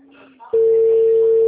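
A phone's steady, single-pitched tone while calling someone starts abruptly after a short, quieter lead-in of faint sounds, then holds loud and unbroken to the end.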